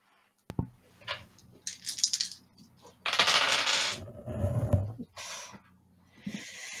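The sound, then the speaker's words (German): Dice rolled for a tabletop role-playing game give a few sharp rattling, clattering bursts of varying loudness, with no talk over them. “Würfel doch mal bitte für deine Kraft.”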